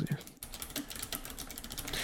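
Someone types on a computer keyboard in a quiet, quick run of many light keystrokes clattering at an uneven pace.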